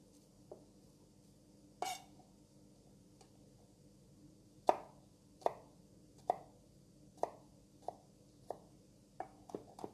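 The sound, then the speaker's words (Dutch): A knife finely chops a garlic clove in a series of sharp, crisp knocks, about a dozen clear strikes that come mostly in the second half at a fairly even pace, with a few fainter taps earlier and no talk. “Dus ik neem toch één teentje. En dat hak ik even fijn.”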